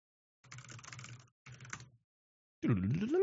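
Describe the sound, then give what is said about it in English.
Typing on a computer keyboard comes in two short bursts of soft, dense key clicks, separated by a brief pause. “ASMR typing.”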